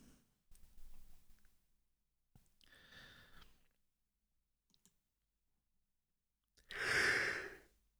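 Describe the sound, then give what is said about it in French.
A person yawning: soft breathy exhales and small clicks separated by quiet pauses, then a louder, drawn-out yawning breath near the end. “Pourquoi ça me fait bailler?”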